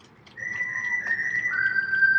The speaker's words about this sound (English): Second strikeout of the game for Will Bryan, and the Tarpons using the Yankees strike 3 whistle. Same sound effect that'll hear in playing Yankee Stadium